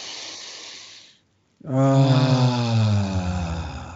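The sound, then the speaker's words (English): A deep breath taken to clear the mind during a guided breathing exercise: a soft, airy inhale, a brief pause, then a long voiced exhale like a sigh that slowly falls in pitch. “let's take a deep breath to clear our mind”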